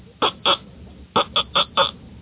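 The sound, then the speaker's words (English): Six short, raspy quacking blasts come from a blown duck call: a pair of separate honks, then a quicker run of four, each one loud and abrupt. “See, this one here, this is a duck call.”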